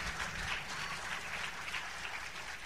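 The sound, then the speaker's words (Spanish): Audience applause in a church service, a steady, dense wash of clapping at a fairly soft level with no talking over it. “dele fuerte ese aplauso al Señor.”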